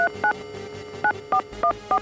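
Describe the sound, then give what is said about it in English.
A phone being dialled sounds six short, clear dual-pitched keypad beeps in an uneven rhythm, with a long pause after the first two. “Okay, turning the phone on. Call Abraham Lincoln.”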